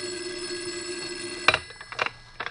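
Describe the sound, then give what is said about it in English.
A shrill telephone bell rings in a steady, bright, sustained tone, then cuts off into a few sharp knocks and clatters. “As I was about to lift him off the bed, the phone rang. A shrill ring filled the room.”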